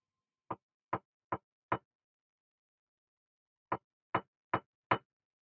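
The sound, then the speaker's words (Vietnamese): Loud knocking on the shared wall between the men's and women's toilets: four sharp raps, a pause of about two seconds, then four more raps in the same rhythm, with no voices. “Thế rồi đột nhiên tiếng gõ cửa cộc cộc vang lên. Nhưng không phải là từ phía cửa mà phía bờ tường chung của cả 2 phòng toilet nam nữ.”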